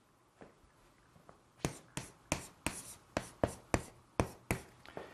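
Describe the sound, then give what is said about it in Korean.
Hand-writing of the Korean character 정: a couple of faint scratches, then a brisk series of sharp, scratchy pen strokes in an uneven rhythm, each clear and distinct against a quiet background. “정하다는 정, 제가 한번 써볼게요.”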